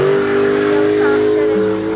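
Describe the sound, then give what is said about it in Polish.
A car speeding away, its engine a steady droning hum that holds an even loudness through the short moment. “wziął mnie na ręce, włożył do samochodu i szybko odjechał.”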